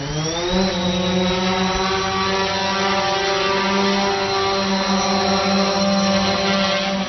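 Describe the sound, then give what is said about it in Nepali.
Steady multi-tone whine of a four-propeller camera drone flying over the traffic police division grounds on Ramshah Path, airplane-like, with a sustained droning hum; pitch climbs briefly at the start, then holds. “विमानस्थलमा उड्ने र अवतरण हुने हवाई जहाजको जस्तै आवाज, तर चालक बिनाको, चारवटा पंखा भएको यो ड्रोन क्यामेरा”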